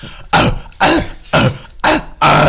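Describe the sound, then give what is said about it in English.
A person imitates a dog barking with five loud, rough, throaty bursts that sound more like gagging or retching than a bark, spaced roughly evenly with short gaps between them. “It's not a dog bark, that's a dog throwing up.”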